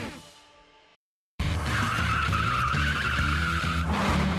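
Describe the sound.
A car accelerating hard, with tires squealing and the engine roaring loudly for about three seconds after a brief silence.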